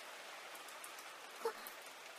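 Heavy rain falls in a steady, even hiss that continues throughout, with one brief soft knock partway through and no voices.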